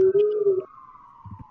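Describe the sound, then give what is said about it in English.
Emergency vehicle sirens wail in New York City: a steady high tone slowly falls in pitch, with a lower droning tone and rumbling noise in the first half and a few low thumps near the end. “Oh, great. You can hear sirens in the background. I'm in New York City right now”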